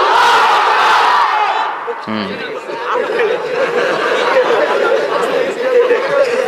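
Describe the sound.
A crowd of unmarried men at an Islamic sermon chants the takbir together: loud massed voices roar continuously, dip briefly around the middle, then swell again.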